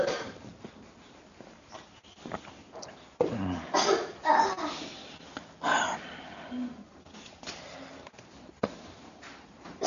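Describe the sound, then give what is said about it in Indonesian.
Coughing from a lecturer during a hadith class: a few harsh, breathy bursts with rough throat noise between them, fairly loud and without speech. “Afwan, ini agak terganggu sedikit batuknya.”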